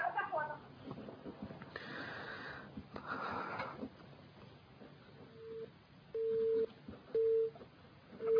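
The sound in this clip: Telephone busy tone after a call disconnects: a few steady, mid-pitched beeps repeat at even intervals, following a stretch of rough, hissy line noise.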